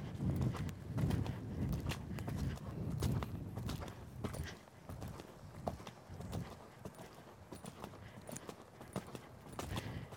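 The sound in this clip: A ridden horse walks, its hooves clip-clopping in a steady, even rhythm of many fairly faint beats that continue throughout.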